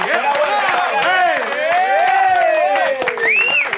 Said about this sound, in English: We need y'all to clap